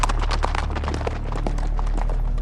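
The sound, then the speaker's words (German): Hoofbeats of several horses being ridden away over the bank of a wadi: a rapid, irregular clatter of many hoof strikes at a fairly even loudness, over a low, continuous rumble. “Sie nahmen ihre Habseligkeiten zusammen und bestiegen ihre Pferde. Und in wenigen Augenblicken waren sie hinter dem Rande des Wadi-Ufers verschwunden.”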